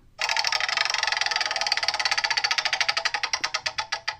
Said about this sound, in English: We're going to spin the wheel.